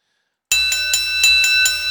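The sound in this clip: Bells ring in a rapid, steady run of bright, metallic strikes over a sustained shimmering tone. They start abruptly after a brief silence and stay loud throughout.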